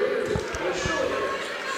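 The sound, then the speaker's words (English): A basketball bounces in short, low thuds as a player dribbles at the free-throw line in a girls' or women's game, with a commentator talking over the bounces. “Dribbles, spin of the ball. Bend of the knees, shot up, arcing shot off the back iron.”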